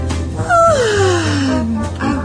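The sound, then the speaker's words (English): A single long, drawn-out human yawn, its voiced moan sliding steadily downward in pitch over about a second before trailing off. “That was a yawn”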